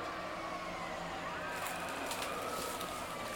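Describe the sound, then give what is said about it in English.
Fizzy crackling of a freshly poured drink bubbling in the glass: a soft, continuous hiss with faint scattered pops that grow a little busier partway through. “Well, I thought I poured evenly, but I did not.”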